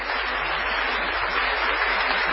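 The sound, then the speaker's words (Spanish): Group applause in a Spanish-language comedy segment, honoring an act of honesty, a steady, even patter of many hands clapping with a dull, muffled tone that holds throughout. “Un aplauso para la honradez.”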